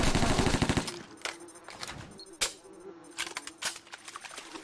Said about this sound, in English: MP5 burst fire. MP5 burst fire.